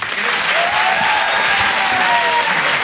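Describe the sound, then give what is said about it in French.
Loud, steady applause from an audience at a live comedy show as a performer is introduced, a dense unbroken roar of clapping that holds for about three seconds with no voice over it. “Je vous demande de faire un maximum de bruit.”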